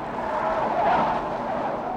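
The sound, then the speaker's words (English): A gray rental car makes a sharp, swerving left turn on a steep San Francisco hill, giving a steady, loud roar of engine and tires that swells slightly partway through. “She makes a sharp, swerving left turn, then turns left again at the front gate of a hospital.”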